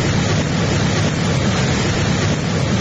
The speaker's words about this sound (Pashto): د اروزګان ولایت د خاص اروزګان پر ولسوالۍ د سیلاب د خړو اوبو بې رحمه څکې